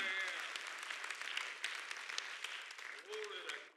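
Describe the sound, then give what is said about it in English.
Faint, rapid hand clapping from a church audience during a sermon. The claps form a steady, brisk texture throughout, with voices mixed in. “Somebody clap your hands to the Lord this morning.”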